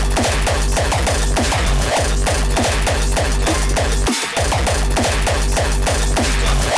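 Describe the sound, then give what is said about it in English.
Rapid gunshot-like bursts blast through the speakers over pounding hardcore stomp beats, a dense, loud barrage that barely pauses except for one brief dip. “That's called shots on the speaker.”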